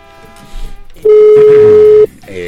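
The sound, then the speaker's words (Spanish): A telephone call rings out as one loud, steady tone lasting about a second. Voices come just before and just after it. “ya está timbrando, ya entró la llamada.”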